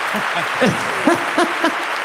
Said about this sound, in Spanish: Aplauso, por favor, para Kaiku Café Latte, nuestro patrocinador de hoy.